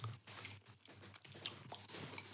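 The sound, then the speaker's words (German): Several people chewing and eating vegetarian meatballs with sauce together: faint, moist chewing and smacking with soft crunchy bites, continuous and without talk. “Jetzt essen wir doch alle gleichzeitig.”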